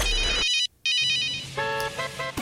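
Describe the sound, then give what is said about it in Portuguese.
A mobile phone ringtone plays bright, melodic electronic tones that cut out briefly, then resume as a run of shorter, higher notes. “Celular tocando e você anotando, 15h50.”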